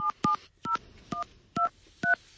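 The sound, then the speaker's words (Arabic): A telephone number being dialed: six sharp dual-tone keypad beeps at a fairly steady pace, each short and clear, with faint clicks and no voices. “شو رأيك فريال لو نتصل بمحمد نسمع هذه الأبيات منه للمرة الثالثة”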